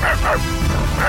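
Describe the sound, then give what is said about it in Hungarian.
Someone imitates an angry dog with their voice, giving three short, harsh bark-like yelps. The first two come close together and the last follows after a pause. “Ez olyan, mint a te kutyád. Ez a dühös kutya volt, igen.”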